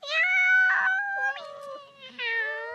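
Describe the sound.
A cat meows in a few drawn-out, whining calls, each sliding gently in pitch and fairly loud, with almost no pause between them.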